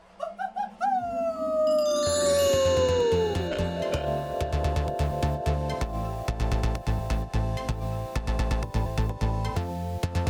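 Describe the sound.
A person howls like a wolf at a Halloween trunk-or-treat event in Boise, Idaho. The long, loud howl glides downward in pitch over the first few seconds and is followed by sharp, rhythmic percussive beats.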